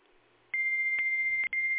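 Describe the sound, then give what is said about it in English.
A fax machine answers a fax number dialed by mistake with a steady, high-pitched electronic tone. The tone starts abruptly and holds level, broken only once by a very short gap near the end. “That was a wrong number. I dialed the fax number by accident.”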